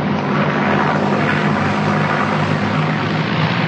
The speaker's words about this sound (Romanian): Uitați-vă ce viraj. Vine spre punct!